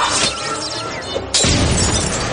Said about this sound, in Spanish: La esfera explota tras este que se tapa la cara.